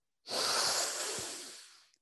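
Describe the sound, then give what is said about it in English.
A single deep, quick breath drawn in during a relaxation breathing exercise: a loud, airy hiss that starts abruptly, then slowly tapers over about a second and a half before cutting off. “I'm going to breathe in quickly.”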